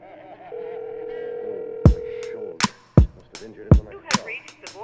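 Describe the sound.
A steady telephone tone hums alone for about two seconds as someone places a call, followed by a few sharp, loud clicks and knocks.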